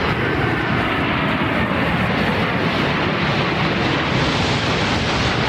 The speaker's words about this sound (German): So klingen die, ne? Die Tornado-Kampfflugzeuge. Heute am Hamburger Flughafen haben Sie die auch gehört.